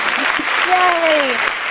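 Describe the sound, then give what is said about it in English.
Applause on a call-in talk show, a thin, muffled burst of clapping with a cheering voice gliding over it. “Yay! You get an applause.”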